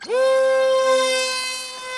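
A camera drone takes off on its first test flight over rainforest with a sharp, high, buzzing motor whine. The whine climbs quickly in pitch at the start, then holds steady and loud, fading slightly toward the end.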